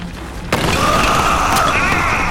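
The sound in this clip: Root shooting through the brick wall of a dorm: a sudden sharp crash, then a loud, sustained grinding rush of noise that continues to the end.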